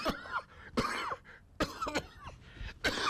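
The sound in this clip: A man coughs and chokes on a bone stuck in his throat, letting out several loud, harsh, rasping coughs in quick bursts with strained, throaty gasps between them.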